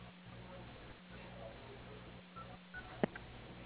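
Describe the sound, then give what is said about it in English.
Telephone keypad tones sound as letters of a surname are spelled on the dial pad for a company dial-by-name directory. A few short, faint beeps and a click come over a low, steady line hum. “Or you may using the dial pad button, please spell the last name of the person.”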